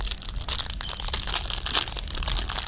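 A protein bar's stiff plastic wrapper crinkles and crackles as someone struggles to tear it open, giving a continuous, busy rustle of sharp little crunches at moderate loudness, with no voices.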